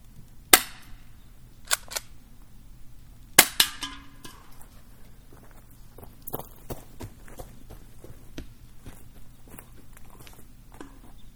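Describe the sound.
Airsoft gun shots fired at a campfire target: a few sharp, dry pops spaced irregularly, two coming in quick pairs, followed by fainter clicks and light rustling.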